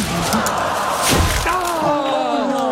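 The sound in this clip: A thud as a golf ball strikes a bird's nest in trees in a golf video game. One sharp impact cuts through busy game sound, and voices talk across it.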